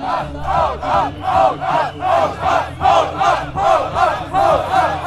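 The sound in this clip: Protesters shout at AfD delegates outside the Maritim hotel, a loud crowd chant of many voices repeated in a steady rhythm, about two shouts per second.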